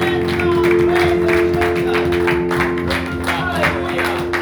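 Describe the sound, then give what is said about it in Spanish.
A church audience claps hands together, with many quick claps in a loose, fairly regular rhythm over sustained low tones. “Let's just clap our hands one more time to the great God and Savior, our Lord Jesus Christ.”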